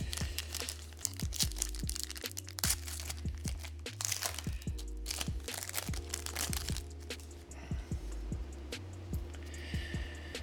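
A pack of hockey trading cards being opened, its wrapper crinkling and tearing in many sharp, irregular crackles and crunches that continue throughout, with no voices.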